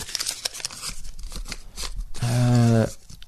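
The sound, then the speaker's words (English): Paper entries for a prize draw rustle and crinkle as they are stirred around, a scratchy crunching that lasts a couple of seconds before a brief voice. “Time for this week's draw. Stir it around in a bit.”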